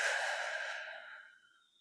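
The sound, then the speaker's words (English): A deep exhale during a guided breathing exercise, a soft airy rush that starts full and steadily thins and fades over about two seconds, heard alone without talk. “And a full exhale out. Do that again. Inhale in. Exhale out.”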